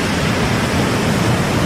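Sea waves on the coast make a constant broad rushing wash, full and fairly loud, with no separate crashes standing out and no voices.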